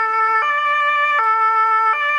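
A German ambulance's two-tone siren, sounded during a children's first-aid course in Mühldorf am Inn, loud and steady, stepping back and forth between a lower and a higher pitch about every three quarters of a second, with no voices.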